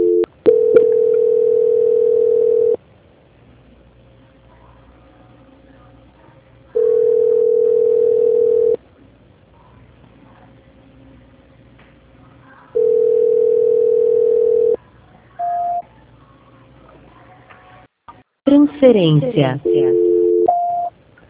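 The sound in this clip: Telephone tone heard while a call is being transferred: long, steady, even-pitched beeps, each lasting about two seconds and separated by equal pauses, followed at the end by a short burst of mixed, busier sound.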